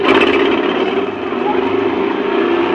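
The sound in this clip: An old car engine cranks up for a race, giving a loud, steady, rough rumble that holds without a break for about three seconds.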